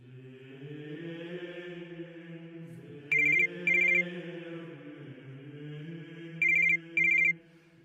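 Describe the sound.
Ringback tone of an outgoing telephone call: two paired ring bursts, each a short double pulse, with a long pause between them, over a steady low droning background.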